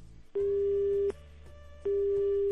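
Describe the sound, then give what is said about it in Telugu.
A telephone busy tone follows a dropped call on a phone-in line: a steady mid-pitched beep sounds, breaks off, then returns and runs to the end, over a low line hum. “Call cut అయిపోయినట్టుందే.”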